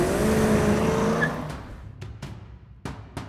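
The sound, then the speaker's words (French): A Ford car started with a screwdriver and driven with the accelerator pressed to the floor. A loud, steady engine roar fills the first half, then it drops off, and several sharp clicks and knocks follow over a lower rumble. “Clyde et Buck attrapent le coffre et le balancent sur la banquette d'une Ford qu'ils démarrent avec un tournevis.”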